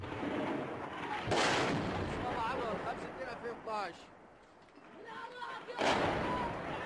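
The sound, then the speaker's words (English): Two heavy booms of artillery fire on the streets of Homs, Syria, a few seconds apart, with voices heard in between. “Forces loyal to Syrian President Bashar al-Assad have launched one of the fiercest attacks yet on the city. Round after round of heavy artillery fire being reported by our partner, the BBC.”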